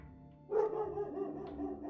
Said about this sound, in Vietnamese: Nghe tiếng chó sủa, con mèo gầm gừ lao xuống sân,